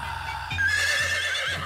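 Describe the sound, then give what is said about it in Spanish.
A horse's neigh rings out as one long, shrill whinny, wavering high in pitch and holding steady in loudness for most of its length, with no voices over it. “regresa el Bigote Baby y su caballo Palomina”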